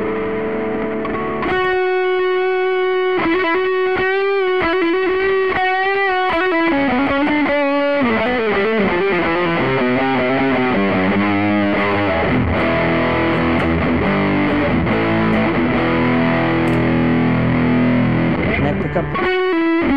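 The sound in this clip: Heavily distorted electric guitar through an amp set for an American, Fender Deluxe-style tone, with every drive and the gain turned nearly all the way up. Dense sustained chords and ringing notes play continuously and loudly throughout.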